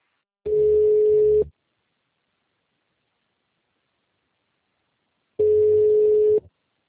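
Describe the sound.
Telephone line tone after a failed call: two buzzy, steady tone bursts, each about a second long, separated by roughly four seconds of silence.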